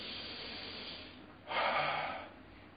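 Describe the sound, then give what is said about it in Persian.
A breathing exercise of in through the nose and out through the mouth, done as slow diaphragmatic breathing. A single loud, breathy exhale rushes out midway and then fades, with only soft background noise before and after. “میدیم بیرون نفس و از دماغ میدیم تو و از دهن میدیم بیرون”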